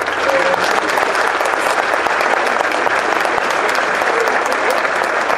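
Loud, dense audience applause for a man named Pancho at a community event in Acuchitlán, many hands clapping in a steady, unbroken wash from start to finish.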